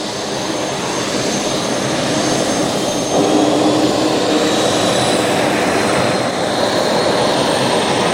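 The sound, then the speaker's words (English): Loud, steady roar of a hydroplane's jet engine fired up for tests before launch on the water, a continuous rushing whine that swells slightly partway through and holds without a break. “that is the sound of the engine of K7 being fired up. They're just going through some tests before she hits the water tomorrow.”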